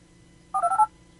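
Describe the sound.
A phone dials its voicemail with a quick burst of four bright keypad tones in rapid succession, brief and clear over a faint low hum.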